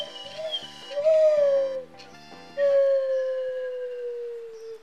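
A person imitating a dog whimpering and howling, using a plunger: a few wavering, whiny pitched cries, then a long sustained howl that slowly sinks in pitch, with no speech.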